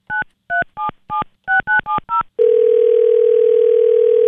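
Touch-tone keypad dialing while calling someone back after reaching voicemail: eight short, crisp dual-pitched beeps in a quick uneven rhythm, then a loud, steady, continuous telephone tone that holds without a break.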